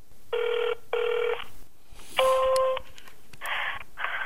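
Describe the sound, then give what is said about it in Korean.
Phone keypad tones sound as an ID number is entered into an automated phone system: five loud electronic beeps, each about half a second long. The first two are identical and the last three differ in pitch. “ARS 연결이 되면 주민번호 입력 부탁드립니다.”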